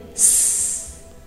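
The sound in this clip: Air hisses out like a large bag deflating: a sudden, sharp, high-pitched hiss that bursts in, holds steady for under a second, then fades away alone.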